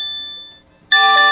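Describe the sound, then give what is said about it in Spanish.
A loud electronic alert rings from an Android phone. A sustained high tone fades away, and after a brief gap a louder, harsher multi-tone burst sounds. “Sí, sí, suena duro su teléfono. Así sí, tiene que sonar en...”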